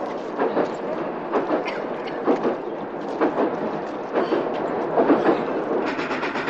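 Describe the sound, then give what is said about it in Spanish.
A train grinds along a snow-covered track, ploughing the snow aside and throwing it in jets to both sides. The loud, continuous rumble carries a rhythmic clatter of wheels, with repeated heavier bursts and no voices. “tren avanza apartando la nieve que cubre la vía y lanzándola a chorro sobre los laterales.”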